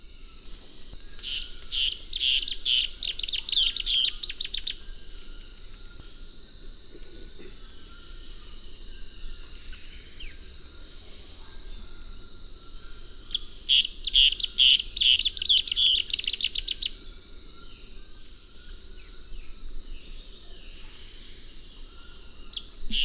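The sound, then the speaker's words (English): Striated antbird song: two rapid, high trilled phrases separated by a long pause, heard over a faint steady background hiss. “Striated ant bird, 1.”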